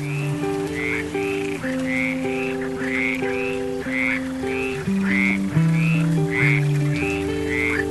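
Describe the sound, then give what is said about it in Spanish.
A frog croaks in a long regular series of short calls, repeated about every half second over soft instrumental music. “Canta la rana debajo del agua.”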